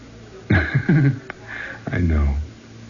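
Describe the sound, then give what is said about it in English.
Deep breaths drawn in, with sniffing inhalations and voiced, sighing breaths heard closely and fairly loud. “Take a deep breath. One deep breath.”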